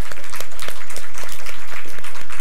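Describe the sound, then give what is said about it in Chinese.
A church audience applauds the choir and worship team, a loud, dense, steady wash of many hands clapping together throughout. “我俾啲掌声我哋嘅诗班敬拜队吓”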